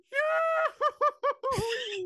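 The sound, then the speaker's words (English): A voice imitates a cartoon yodel yell of a skier tumbling off a cliff: a long held note, then four short hooting bursts, then a final sustained cry that wavers in pitch. “Why else would you yahoo-hoo-hoo-ee every time you fell off a ski”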